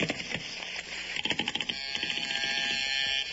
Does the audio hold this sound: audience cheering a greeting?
no